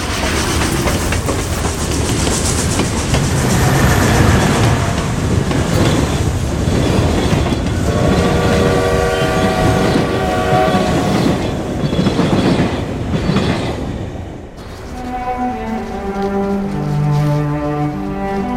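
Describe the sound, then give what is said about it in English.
Train passing, with heavy rhythmic wheel clatter over the rails, followed by drawn-out high squealing tones from the wheels that ring on while the rumble fades slightly toward the end. “sticks his head out a window and sees men jumping out of the train's path”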